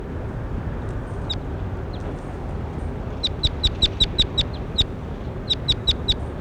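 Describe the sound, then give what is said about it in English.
Bird calls come as sharp, high chips in quick runs, preceded by a few isolated notes, over a steady low background rumble. “That was bird 21. Here he is again.”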